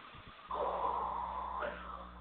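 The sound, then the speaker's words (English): A deep breath drawn in and then slowly exhaled: one long, soft, airy rush of air that lasts just over a second, with a muffled, band-limited tone. “Okay, go ahead and take a deep breath and exhale.”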